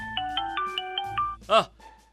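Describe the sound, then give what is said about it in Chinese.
A phone ringtone plays as a quiet electronic tune of short steady tones in a few stepped pitches, followed by a brief burst of voice near the end. “哎呦，我的电话来了。”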